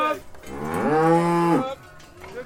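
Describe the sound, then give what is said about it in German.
A loud, drawn-out moo from Harzer Rotes Höhenvieh cattle, a single rich call that swells in pitch and then holds steady before breaking off. “Kenner haben es vielleicht schon am ersten Moon gehört. Das ist der Sound vom Harzer Rotes Höhenvieh.”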